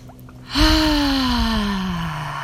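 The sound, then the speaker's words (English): A deep breath let out as a long voiced sigh during a guided group breathing exercise. The sound is a sustained, moderately loud tone that drifts slowly lower in pitch over about two seconds. “begin to take some deep breaths with me”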